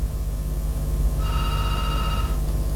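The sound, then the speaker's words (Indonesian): A phone ringing with an incoming WhatsApp call: one tonal ring burst of about a second, standing over a constant low background noise. “Ini telepon WA-nya lagi.”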